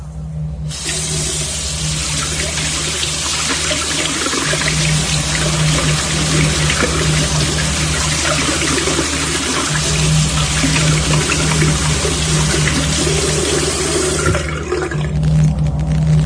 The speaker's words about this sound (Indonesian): Sebelum tidur, sudah kebiasaanku mencuci muka dan sikat gigi di wastafel.